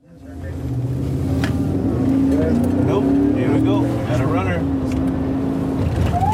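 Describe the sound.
A border police car in Texas accelerates, its engine a loud, steady drone that holds throughout, with voices faintly audible over the motor.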